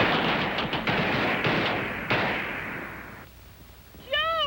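Gunfire on a shooting range firing line: several sharp, loud reports in quick succession merge into a dense roar that gradually dies away, then a brief high-pitched voiced cry breaks in at the very end.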